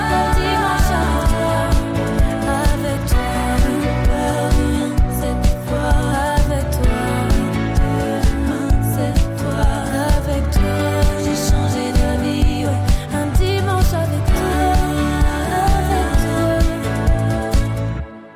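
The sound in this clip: A French-language pop song plays throughout, with a steady, regular beat, layered instruments and a full, loud mix that holds an even level before cutting off at the end.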